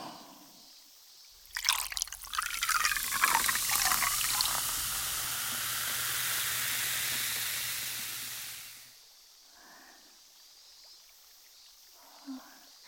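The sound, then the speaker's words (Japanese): Liquid is poured right beside the ear. A splashy, bubbling pour settles into a steady hissing stream for several seconds, then stops, leaving a few faint drips. “じゃあちょっと後ろに失礼して、先輩の耳元でこれは注いであげますね。”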